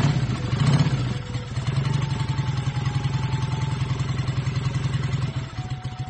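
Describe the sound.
A motorcycle engine runs steadily with a low, rhythmic put-put throb and a clattering mechanical edge, fairly faint and heard alone without talk.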